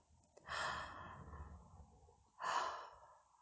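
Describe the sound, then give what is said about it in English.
Slow, deep breathing during a relaxation session: two soft, airy breath sounds separated by a quiet pause. Both are faint and unhurried, with no talk. “Let's take a nice deep breath and relax a little bit more.”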